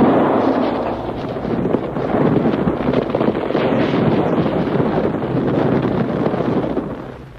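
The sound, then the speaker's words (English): Loud, sustained rumbling roar of loose rocks tumbling inside a cave after a warning gunshot, a radio drama scene. The dense, noisy wash holds steady for several seconds, then tapers off at the end. “That's a warning. Come out with your hands up. You shot loose some rocks.”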